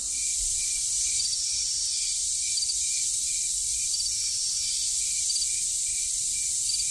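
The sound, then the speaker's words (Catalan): Crickets and cicadas chirp in August summer heat, a dense, continuous, high-pitched buzz with a steady, rapid pulsing trill running through it, fairly faint and with no voices. “un grill d'aquests que quan fot aquella calorada del mes d'agost sona així”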